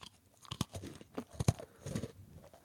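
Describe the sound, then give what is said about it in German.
Crunchy bites into a cookie give a few sharp, crisp cracks followed by softer crumbly chewing, with no talk over them. “Darfst du in den Keks beißen? Ja. Ist das eine ernsthafte Frage? Ja, ja. Nee, weil es gibt ja Krümelgeräusche.”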